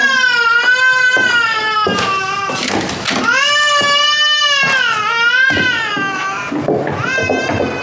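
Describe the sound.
An infant cries after waking up, loud wailing in long, rising and falling bursts separated by brief catches of breath, continuing throughout without any talk.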